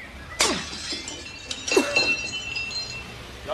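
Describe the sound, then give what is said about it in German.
A thrown paving stone smashes a workshop window. Two loud bursts of shattering glass are followed by scattered tinkling of falling shards. “Wir müssen das Werkstattfenster einschlagen und durchs Fenster einsteigen. Von da kommen wir dann in den ersten Stock rauf. Da ist ein Pflasterstock, schmeißen Sie den durch.”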